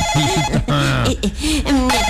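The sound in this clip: A telephone rings with a steady, repeating electronic tone, mixed with lively voices and other sounds throughout.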